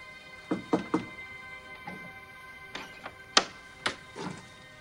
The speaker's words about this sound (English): She knocks.